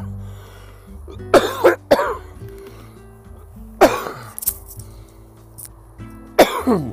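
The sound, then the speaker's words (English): Repeated coughing into a hand-covered microphone: several harsh, muffled bursts in short pairs and clusters, separated by quiet gaps with a faint steady hum underneath. “I'm here trying to cover the microphone while I cough.”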